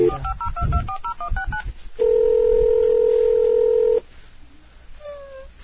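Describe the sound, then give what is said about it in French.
Touch-tone dialing for a live phone call: a quick run of many short beeps, followed by a steady two-second tone, then quieter line noise with a few brief higher tones at the end. “Donc, on appelle en direct.”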